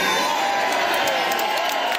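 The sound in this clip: Loud, ecstatic crowd cheering at an election night rally as a party leader takes the stage: a dense, steady roar of voices with whoops and shouts rising above it, sustained throughout.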